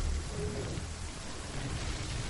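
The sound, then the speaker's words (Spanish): Heavy rain pours down outside, a steady, dense hiss with a low rumbling undertone that stays unbroken and even from start to finish. “Los dos chicos miran hacia el exterior donde sigue lloviendo con fuerza.”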